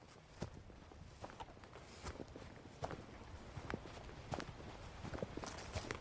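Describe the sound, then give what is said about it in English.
Footsteps of a hiker in hiking boots walking along a trail, with many soft, steady steps at an even walking pace, faint over a low background hiss and with no talk. “I park up, put on my hiking boots, and hit the trail.”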